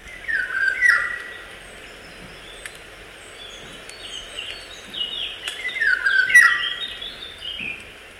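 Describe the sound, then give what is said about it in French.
A Eurasian golden oriole sings short, fluty, melodious whistled phrases, one burst near the start and another later on, with faint chirps and quiet background between. “Bon, je vais vous faire écouter un loriot. Allez, donc, il est mélodieux et majestueux.”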